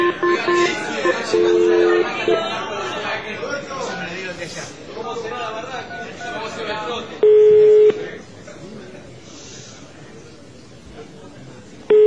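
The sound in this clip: Telephone keypad tones sound as a number is dialed, with a few short beeps under ongoing talking. A longer steady tone follows later, then the talking continues quietly.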